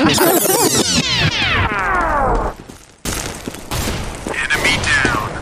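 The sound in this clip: A gunshot effect from an online video game marking a headshot: a long, loud falling tone gives way to a sudden pause, then a burst of harsh, noisy crackle that continues to the end.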